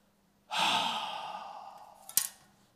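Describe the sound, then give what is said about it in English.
A long, breathy exhale imitated by a voice, demonstrating breathing out: a steady sigh that trails off over about two seconds and ends with a short, sharp puff of breath. “What Jesus does is he breathes. And I take it what it means is he breathes out. He goes,”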